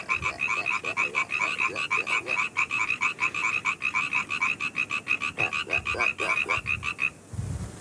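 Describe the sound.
Frogs croaking in a pond near Heraklion, Crete: a rapid, steady run of many rhythmic, buzzy croaks that overlap in a dense chorus. The calls are loud and even throughout, with no voices.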